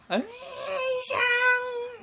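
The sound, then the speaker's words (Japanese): A voice imitates a giant cat creature's cry and a grandmother's anguished call, giving two drawn-out, wavering vocal cries of about a second each. The first starts with a sharp onset and the second bends down in pitch at the end. “猫バスが一瞬バッて言って、あの ばあちゃんがメイを探しまくってる悲痛な叫びを一瞬聞こえるシーンの真似をしました”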